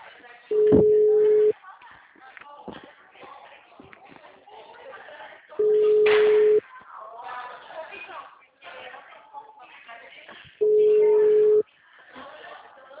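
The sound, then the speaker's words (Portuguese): Three long, steady telephone tones, each about a second, evenly spaced about five seconds apart, as a call goes through on a line reported busy. Faint background sounds fill the gaps between tones. “Alô, boa tarde. Ah, não atendeu ainda. O número está ocupado.”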